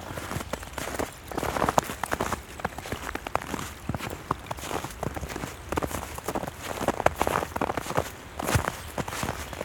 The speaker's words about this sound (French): La neige craque au milieu des clapotis.